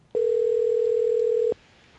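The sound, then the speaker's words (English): A telephone rings out while calling a restaurant: one steady, mid-pitched ring tone holds for about a second and a half, then stops into near silence. “All right, I got the Wiener Circle phone number. Let's call them.”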